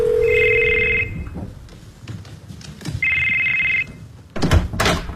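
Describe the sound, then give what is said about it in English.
A telephone rings in two electronic trilling bursts, each about a second long, separated by a pause with soft thumps and rustling. The second ring is slightly shorter, and a sharper knock follows near the end. “Your phone rang. What? You missed a call.”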